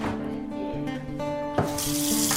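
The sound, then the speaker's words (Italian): Water runs from a tap in a steady hiss that grows fuller and louder in the second half, with a steady tone held underneath. “Rinfresco l'acqua.”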